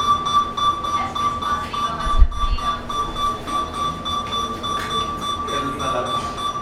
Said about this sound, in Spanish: ¿Qué es una alarma? ¿Ven? ¿Qué es una alarma? ¿Pero no es una alarma sísmica?